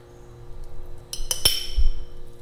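Seasoning scraped with a spoon into a glass jar: a few bright, quick clinks of metal on glass close together, fairly faint and alone.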